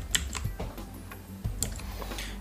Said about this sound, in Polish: Jeżeli nie chcę, żeby on mi już grał, to naciskam S i on się wycisza, jest zatrzymany.